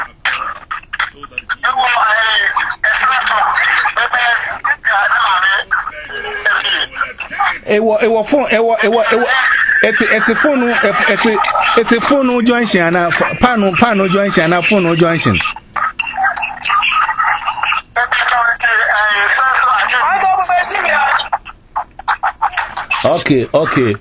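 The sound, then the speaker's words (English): A telephone sounds during a minister's sermon, its electronic tone repeating in bursts and mixed with speech. “It's a phone.”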